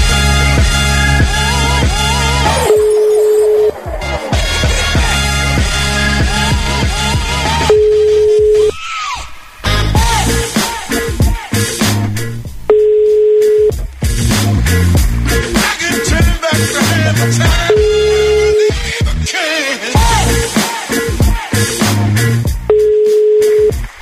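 Telephone ringback tone while trying to reach someone: a steady mid-pitched beep lasting about a second repeats five times at regular intervals, heard under a loud, dense, continuous background.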